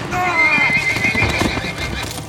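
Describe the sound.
Horses whinny loudly over fast hoofbeats as riders gallop down a road out of town in a Western chase, one long whinny falling in pitch above steady drumming hooves.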